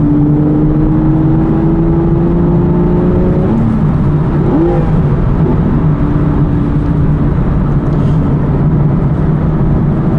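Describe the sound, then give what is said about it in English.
A car engine revs hard after a downshift of a couple of gears, a loud, continuous droning tone whose pitch shifts briefly midway before settling again, with no talk over it. “I'll come down a couple of gears and we'll make some noise.”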